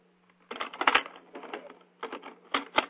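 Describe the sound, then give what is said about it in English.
A cassette tape is handled and turned over, giving a quick series of small plastic clicks and clatters in bursts over a faint steady hum. “So the tape's okay. I'm just going to turn it around.”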